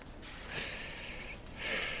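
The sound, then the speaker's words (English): A deep breath drawn in, faked as if to pass for human, heard as an airy, sniffing hiss in two stretches, with the second stretch louder and brighter; no voices. “Maybe fake a breath.”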